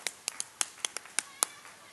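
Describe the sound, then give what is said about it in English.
Hands clap at a church gathering, putting little beats into the rhythm. A quick, uneven run of sharp, fairly faint claps falls in a syncopated pattern, with a few softer taps between the louder ones. “Let's try clapping for a second here. Give me a clap. I get a little into my clapping.”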